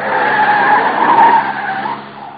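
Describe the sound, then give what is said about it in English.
A car skids around a corner on the handbrake, a loud, steady tire squeal with a harsh midrange screech that holds for about two seconds before fading, with no voices. “Hang on, corner on the handbrake makes things kind of sudden.”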